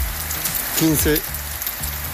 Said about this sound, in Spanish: Está lloviendo muy bonito, muy finito.